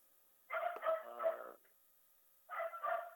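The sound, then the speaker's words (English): A dog barking and vocalizing in two drawn-out, whining bursts separated by a pause, fairly faint and with no talk over it. “Can you hear okay with the dog? It's a little loud.”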